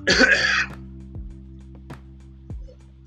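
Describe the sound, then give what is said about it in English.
A single harsh cough from a dry throat bursts out loudly at the start, then quickly gives way to near quiet. “I'm sorry I'm coughing so much. No, listen, I'm my throat's dry.”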